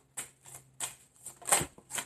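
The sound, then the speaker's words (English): Faint papery flicks and snaps of playing cards being dealt and handled during a card game, in a few short, uneven bursts. “Okay, that's too many cards, people. Let's see. May I have 5 more cards, please?”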